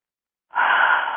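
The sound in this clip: A single deep breath: a soft, airy rush that begins abruptly after a short silence and holds steadily for under a second.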